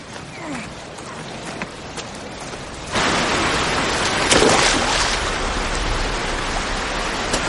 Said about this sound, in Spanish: Se dirige hacia el lago y tira allí los peces en una zona rocosa de corriente.